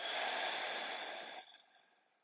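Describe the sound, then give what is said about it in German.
Slow breathing during a guided breathing exercise: one long, soft, airy exhale that gradually fades away, with no talking. “Und weiter einatmen. Und ausatmen.”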